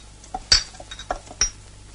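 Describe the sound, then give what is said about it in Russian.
Several coins dropping onto a floor, heard as a few light metallic clinks, two of them noticeably louder and brighter, spread over a couple of seconds. “Несколько монет упали на пол. Александра нагнулась за ними.”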